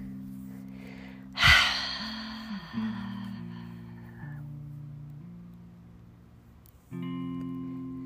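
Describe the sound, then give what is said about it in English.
A long exhale after a held breath in a guided breathing exercise. It begins as a loud, breathy rush and slowly fades over a few seconds above a steady, low, sustained musical drone. No talk is heard. “holding the breath for a count of 3, 2, 1. Exhaling it all out.”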